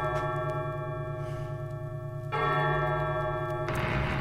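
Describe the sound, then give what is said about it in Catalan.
A ringing bell chime: a sustained, resonant tone with rich overtones, struck again twice so that each strike adds a louder, brighter layer to the lingering ring. “S'ha fet esperar aquesta campanada, eh?”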